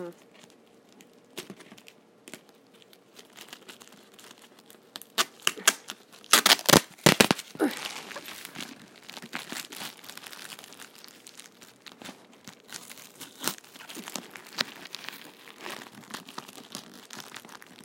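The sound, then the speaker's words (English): Tape being cut on a cardboard box: many crackling, tearing and rustling bursts in an irregular rhythm, with a loud, dense cluster near the middle and lighter crinkling before and after. “So we are going to cut some tape.”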